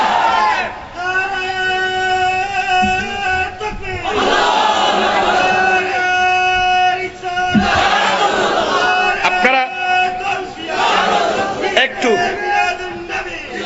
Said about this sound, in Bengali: আমি আগে বলছিলাম তকবীর কম দো বাবা, আমার কথা বলার সুযোগ দো